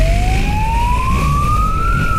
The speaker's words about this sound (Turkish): siren seslerine rağmen kaçışından vazgeçmedi.